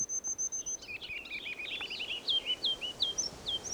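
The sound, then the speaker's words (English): Ruby-crowned kinglet song: a thin, high, sustained whistle, then a jumble of quick high twittering notes building into a run of rhythmic, repeated chirpy phrases over a steady background hiss. “Here's a ruby crown kinglet.”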